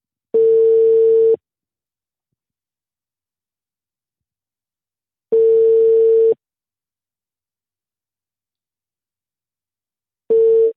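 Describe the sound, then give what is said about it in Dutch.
Telephone ringing tone heard while placing a call to a local trader in Bree: three steady, mid-pitched tones, each about a second long and separated by several seconds of silence, the last one cut short. “Ik ga zo dadelijk eens heel even proberen te bellen met een lokale handelaar uit de stad Bree.”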